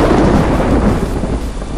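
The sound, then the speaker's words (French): Thunder rumbling in a storm, a loud, continuous deep roll with a hiss of rain throughout. “Le tonnerre grondait.”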